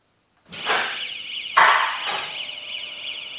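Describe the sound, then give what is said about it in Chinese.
An alarm sounding at a parking space: a loud, continuous, warbling electronic tone with two sharper bursts near the start, then holding steady. “当时是一抬起来就有报警声”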